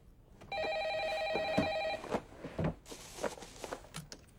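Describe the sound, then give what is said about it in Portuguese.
An intercom rings with a single steady electronic buzz-tone that holds for about one and a half seconds. A few faint clicks and soft knocks follow in otherwise quiet surroundings. “O que é isso? Interfone.”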